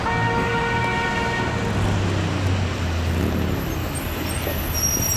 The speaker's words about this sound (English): Right now we're at the intersection of Maine and Hastings. This is the epicenter of what's commonly referred to as Skid Row, but what most people now call downtown Eastside.